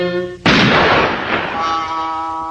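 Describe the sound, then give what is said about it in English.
A single loud gunshot from a gun cracks out right after a brief voice. Its broad blast decays slowly over about two seconds, leaving a faint ringing tone. “You know what to do with that gun, Doc.”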